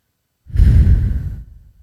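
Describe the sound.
A single long exhaled breath during a guided breathing exercise. The breathy whoosh starts abruptly, holds strong for about a second, then fades out, with no voice.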